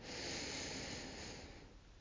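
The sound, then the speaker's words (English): A deep breath is drawn in through the nose during a guided relaxation exercise: one soft, steady, airy inhale lasting most of two seconds, then tapering off quietly at the end. “Let's do our final guided breath now. Breathe in.”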